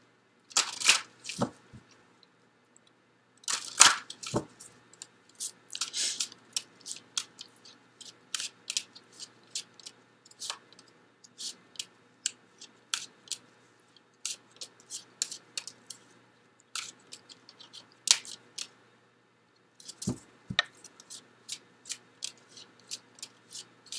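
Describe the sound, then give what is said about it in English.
Handling a deck of life purpose cards: many soft, scattered card flicks, slides and snaps over a long, quiet stretch, in irregular short bursts separated by pauses. “Okay, so let me get the Life Purpose cards for you, Virgo.”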